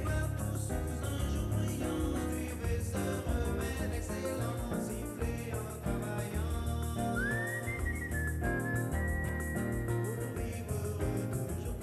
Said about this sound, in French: Sifflez un air joyeux